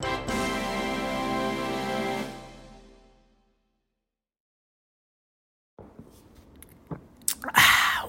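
Someone eats an egg cream with chocolate syrup. A sustained tone fades into silence, then a few soft, wet chewing and biting sounds follow, ending in a louder crunchy burst.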